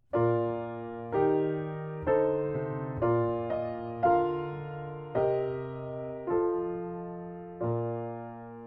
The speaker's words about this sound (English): So let's take a look at the first example from the Bach chorale. It sounds like this.